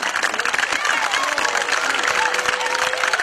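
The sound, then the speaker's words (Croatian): An audience claps at a gathering where a local football club's promotion to the first league is being urged. The applause is dense and steady, with crowd murmur throughout. “Ajmo, ajmo, pa možete pljeskati za prvu ligu koju želite.”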